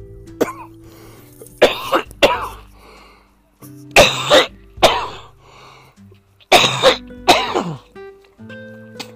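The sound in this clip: Coughing from allergies outdoors, a chesty cough that comes in a few clusters of harsh, loud bursts separated by short pauses.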